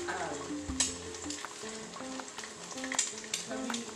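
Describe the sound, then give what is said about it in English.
Eggs fry in a pan for scrambled eggs, giving a faint, steady sizzle and crackle broken by a few sharper clicks. “Ooh, I'm gonna make Toby a scrambled egg.”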